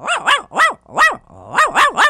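Dog barking in two bursts of sharp, arching barks, about seven in all, with a brief pause midway; loud and clear with no talk.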